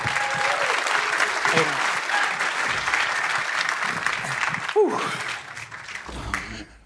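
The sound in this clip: Audience applause welcoming a performer back to the stage, dense sustained clapping with some voices mixed in, thinning out toward the end.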